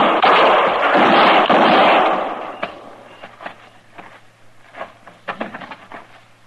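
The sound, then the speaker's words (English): Gunfire in a radio drama western scene with a marshal in a dark room: a long, loud blast gives way to a string of sharp cracks and scattered smaller pops, over a low steady hum. “I tried for his shoulder the first shot, but I missed.”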